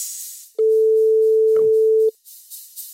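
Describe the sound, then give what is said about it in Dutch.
A telephone line tone plays while a call is placed: one steady, mid-pitched beep lasting about a second and a half, with faint noise before and after it. “Gaan we hem bellen.”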